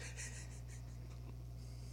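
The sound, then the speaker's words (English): A pen scratches on paper as something is written down, with a few soft, short strokes near the start over a steady low hum. “All right. I'm going to write that down. It's now on record.”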